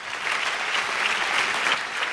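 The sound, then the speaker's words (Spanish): An audience at a church sermon applauds with dense, steady clapping that stays fairly loud for the whole short stretch. “Dale mejor ese aplauso.”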